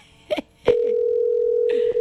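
A telephone call ringing with nobody answering: one long, steady, mid-pitched tone holds for over a second, with brief short sounds just before it and near its end.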